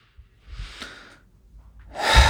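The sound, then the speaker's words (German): Deep breaths in and out during a guided relaxation exercise with eyes closed: soft, airy breathing sounds, with a fuller, louder breath at the end and no talking. “Schließ für einen kurzen Moment deine Augen und atme dreimal tief ein und aus.”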